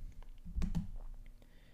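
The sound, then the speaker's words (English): Computer mouse clicks on a random button, with two sharper clicks close together amid a few faint taps and light background noise. “I'm going to click the random button, so we'll see what we got.”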